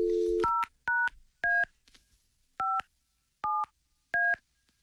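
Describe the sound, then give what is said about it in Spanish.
Touch-tone dialing of a telephone number: a short low steady tone, then six crisp dual-pitch beeps at an uneven pace with quiet gaps between them. “Nos vamos inmediatamente a marcar un posible ganador del viaje.”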